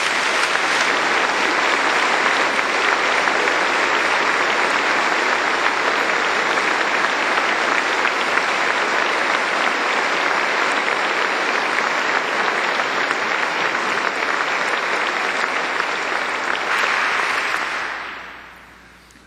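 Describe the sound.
Applause welcoming Senator Richard Lugar back home: a dense, steady wash of clapping that holds at an even loudness for about seventeen seconds, then quickly fades away.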